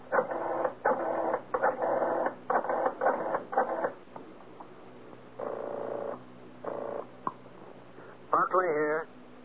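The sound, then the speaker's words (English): A telephone number being dialled in a radio drama: a run of short, buzzy tone bursts in quick succession, a pause, then a few more, ending in a brief wavering tone. “Better yet, I'll dial and have him speak with you.”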